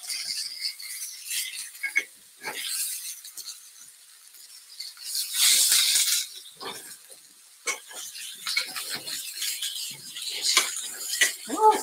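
Stuffed food being turned over in a hot cooking pan: steady sizzling hiss broken by a few clinking, scraping utensil sounds against the pan, with no talking.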